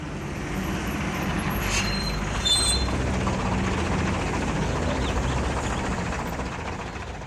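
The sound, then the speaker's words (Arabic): A bus drives along with a steady, fairly loud rumbling drone that holds constant throughout, with a brief faint higher whine partway through. “ميمون يركب الباص ويرجع إلى الغابة الجميلة.”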